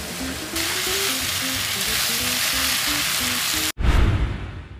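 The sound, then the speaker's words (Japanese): Onions, potatoes and pumpkin sizzling as they fry in a pan for a vegetable potage, a dense, steady hiss that cuts out briefly near the end and then returns louder. “玉ねぎじゃがいもかぼちゃを炒めております”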